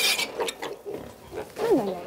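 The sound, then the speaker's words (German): Swabian-Hall piglets grunt and snuffle in a string of faint, rough, irregular grunts, with a louder cluster toward the end. “Er kennt die Allüren der schwäbisch-hellischen Ferkel ganz genau.”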